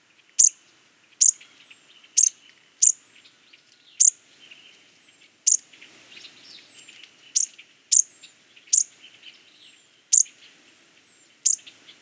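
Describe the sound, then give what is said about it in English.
A flock of bushtits gives contact calls: many tiny, high-pitched chirps at irregular intervals, each sharp and brief, with softer twittering notes scattered between them against otherwise near silence. “those were the contact calls of bush tits. The little chirps are about all the songs they make.”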